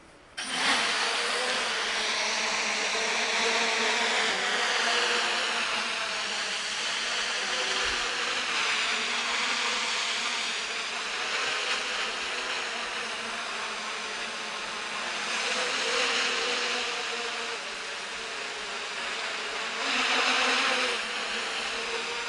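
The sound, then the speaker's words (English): An eight-propeller flying machine hovers with a steady, dense whirring buzz, like a swarm of insects, that holds level and continuous throughout with only slight swells in loudness. “It has its own complexities, mainly having to do with the interacting flows from its eight propellers. Some of this can be modeled, while the rest can be learned on the fly. Let's take a look.”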